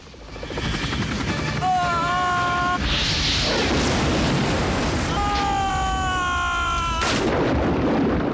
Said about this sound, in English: The missile hits the security chopper.